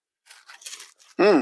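Chocolate cookies bitten into, giving a few crisp, dry crunching bursts, followed by a short, loud, voiced hum of enjoyment.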